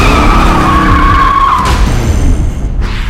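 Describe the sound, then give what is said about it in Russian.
Loud tyre skid of a motorcycle as it bursts into a courtyard, its leather-cloaked, helmeted rider braking hard; one sustained screech over engine roar holds steady before easing off near the end, with no voices. “Во двор врывается мотоциклист в кожаном плаще и шлеме.”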